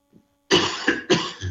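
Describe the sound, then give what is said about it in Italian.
A few harsh coughs from a man who is troubled by persistent coughing come in quick succession, loud and rough, with no speech between them. “Chiedo scusa dei miei colpi di tosse, ma sono ineliminabili.”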